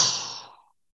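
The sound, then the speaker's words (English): A single forced exhale during a breathing exercise: a breathy, hissing rush of air that starts strongly and fades to silence in under a second, with no other sound. “The inhale, you'll notice, will just happen automatically. The body will do that. And then go again, forced exhale.”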